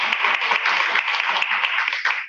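Applause at a ceremony honoring newly tenured teachers in Babylon: steady, bright clapping from a gathered audience, continuous and even with no voices standing out.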